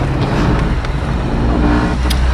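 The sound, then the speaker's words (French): Steady low engine and road rumble inside a moving service car, driven by an archaeologist at the Bibracte archaeological site. The noise stays continuous and even in loudness throughout, with no voices. “Alors là, je me trouve dans la voiture de service d'Arnaud Meunier, qui est archéologue géomaticien ici sur le site de Bibract.”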